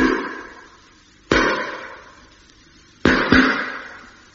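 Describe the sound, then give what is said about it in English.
Tapping on a ship's hull, moving all the way around the ship in a radio drama: four sharp metallic knocks, each ringing out as it decays, the last two coming close together. “Now they're on the tap again, going all the way round the ship.”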